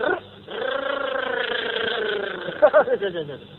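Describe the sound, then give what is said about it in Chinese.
A voice imitating a motorcycle engine, holding a steady buzzing drone for about two seconds, then breaking into a few short sputtering bursts. “出了开封府的门，一片腿骑着摩托车，滴，”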